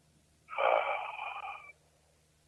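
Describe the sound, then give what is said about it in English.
A single deep breath drawn in during a guided relaxation exercise: a steady, breathy inhalation lasting just over a second, heard alone against quiet. “Now breathe in deeply.”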